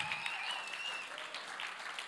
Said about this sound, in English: So can we put our hands together? Can we stand and welcome him?